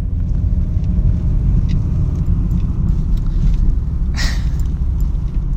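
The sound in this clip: A car drives on a road with a loud, steady low rumble that holds throughout without a break, marked by one brief hiss partway through.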